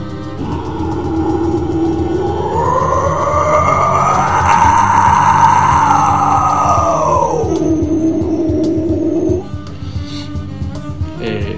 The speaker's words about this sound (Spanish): Después tenés un gutural cerrado, que es ya con la boca un poco más cerrada, que podés hacer sonidos como